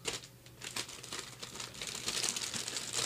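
Crinkly paper rustling as a big holiday gift bag is opened and ripped into at a Secret Santa toy exchange, a continuous crackling that swells louder toward the end.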